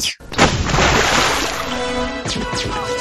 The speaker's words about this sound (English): When you're first watching Die Hard at this time, when that stun grenade goes off, you get an idea of, whoa, this sound mix is pretty incredible. Yeah, you know? It is. Because it goes... It booms,